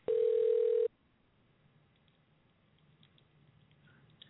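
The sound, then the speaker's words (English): One steady, loud ring tone of an outgoing telephone call lasts under a second, then cuts off, leaving near silence with only faint background noise. “C-Bone, that was your number I just called.”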